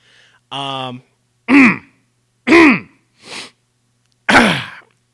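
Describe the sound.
Throat clearing in a series of harsh, voiced grunts and rasps, about five loud bursts separated by short silences, some with a strained tonal edge as phlegm is worked up.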